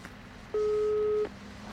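A ringback tone while calling a mobile phone: a single steady, mid-pitched electronic beep lasting under a second, heard alone against faint background hiss.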